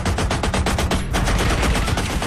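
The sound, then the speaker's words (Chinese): Submachine gun fire in a shootout, a loud, rapid burst of many fast repeated shots with a brief break partway through, with no voices. “书生见状，赶紧拔出藏在风衣里的冲锋枪，向着开枪的保镖进行了猛烈的还击。”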